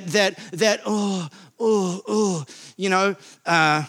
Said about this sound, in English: I think Seinfeld called it the dad noise. You know, get up from the couch.